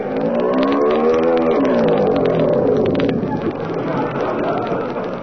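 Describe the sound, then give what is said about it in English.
A scooter engine runs with a continuous buzzing drone whose pitch climbs and then sinks during the first two seconds, then settles into a rougher, steady rattle. “Wait a minute, I can't hear anything. This engine is too”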